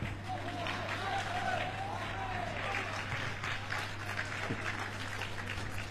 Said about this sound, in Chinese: 首先感谢大家热情的掌声